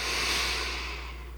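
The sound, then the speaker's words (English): A slow breath drawn in through the nose as part of a calming breathing exercise makes a soft, steady, airy hiss that gradually fades toward the end. “So let's start with a slow breath in”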